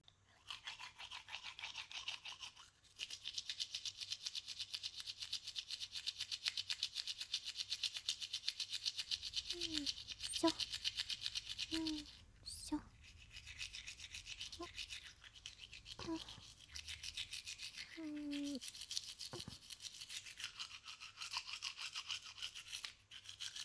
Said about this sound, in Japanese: 糸切り歯と前歯は歯ブラシを縦に向けてゴシゴシしていくよ。